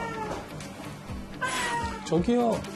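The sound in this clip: A cat meowing to go outside, a few drawn-out, wavering cries that rise in insistence toward the end, over a low background hum.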